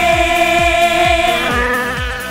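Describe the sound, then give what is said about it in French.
Wasps buzz around an ice cream as a loud, steady droning whine that shifts slightly in pitch partway through. A regular low thumping beat runs underneath. “Toutes ces guêpes qui tournent autour de ma glace, ça m'énerve.”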